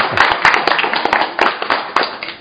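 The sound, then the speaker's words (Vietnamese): Loud applause for a couple's 21st wedding anniversary, with distinct hand claps in an uneven, rapid rhythm that swell and ease in several waves. “Hôm nay là kỷ niệm 21 năm ngày cưới của anh chị. Chúng ta chúc mừng anh chị một tràng hoa tay.”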